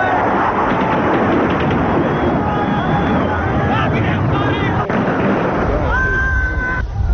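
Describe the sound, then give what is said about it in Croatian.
Gunfire as an army, backed by the Yugoslav People's Army, shoots into a crowd of citizens: loud bursts and pops over constant crowd noise and shouting, muffled. “Srpska vojska uz podršku Jugoslovenske narodne armije puca u masu građana.”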